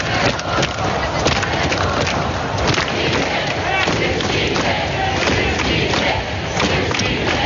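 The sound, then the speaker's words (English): A crowd of demonstrators at a Saturday protest in Ukraine chants and shouts, a dense, continuous roar of many voices that stays loud and even from start to finish. “During the latest demonstrations on Saturday, chants of Syrsky out and Fedorov in his support could be heard.”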